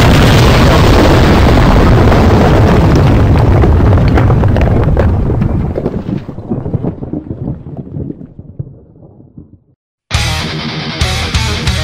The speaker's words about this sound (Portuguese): A granada explode.